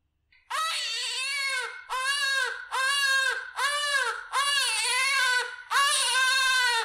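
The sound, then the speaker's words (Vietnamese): A newborn baby cries loudly in six drawn-out, high-pitched wails, each rising and falling in pitch, with only short breaths between them and no talk. “Tiếng khóc lại vang lên, so với lúc trước còn lớn hơn.”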